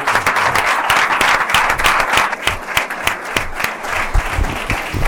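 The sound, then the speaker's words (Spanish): Audience applause at a human resources forum, a loud, dense wash of many hands clapping that holds steady for the whole stretch before easing slightly near the end. “Un aplauso fuerte para esta mesa, está muy bien.”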